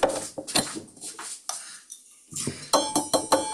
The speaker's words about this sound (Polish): O, ja ją otworzyłem, żeby zagrała. Zamykamy teraz ją. Ale do tej metalowej butelki to co, to lejemy mleko?